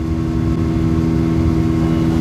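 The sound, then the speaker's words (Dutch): A motorboat serving as a mobile medical clinic travels on the Sobat river. Its engine gives a loud, steady, low droning hum that stays constant throughout, with no other sounds standing out. “Dit is niet zomaar een boot, maar een mobiele kliniek.”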